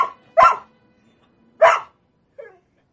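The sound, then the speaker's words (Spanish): Dog barking inside a house behind a glass door: two sharp, loud barks about a second apart, then a shorter, fainter yelp, with silence between them. “En el interior de la casa, el perro observa el exterior a través del vidrio de la puerta.”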